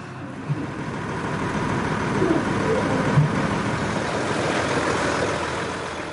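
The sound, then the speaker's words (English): Steady engine and road rumble of a car on the drive to the airport, a constant low drone with no distinct events standing out. “The drive to the airport began what would be a two-day journey.”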